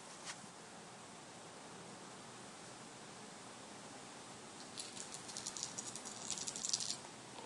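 Dice rolling in a tabletop game make a faint clattering rattle that builds over the last few seconds above a steady low hiss.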